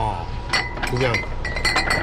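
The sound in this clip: Glass bottles of Kaoliang, a 58-degree local liquor, clink on crowded shop shelves: a few bright, short clinks at uneven intervals, with voices talking underneath.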